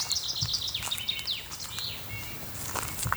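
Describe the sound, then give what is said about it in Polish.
Chaffinch song and soft bullfinch calls in a forest where winter meets spring: a quick run of bright, descending notes early on, then a few scattered chirps and whistles, all faint over a steady background hiss. “Sytuacja, kiedy akustycznie zima styka się z wiosną, czyli już słychać śpiew zięby, ale jeszcze trąbienia gili zimowe, które już niedługo ustaną.”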